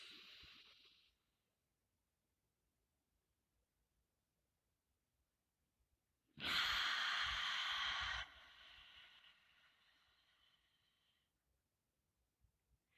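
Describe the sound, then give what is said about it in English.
A long, deep breath taken during a guided meditation: a loud, airy rush lasting about two seconds that eases into a softer trailing breath for a few more seconds, heard alone with no talk. “Let us take a long, deep breath, counting 3, 1, now.”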